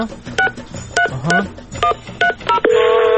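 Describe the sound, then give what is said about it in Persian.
Keypad tones as a telephone number is dialed, a quick run of short beeps at varying pitches, followed by a steady continuous tone. “بذاری من شمارش رو بگیرم.”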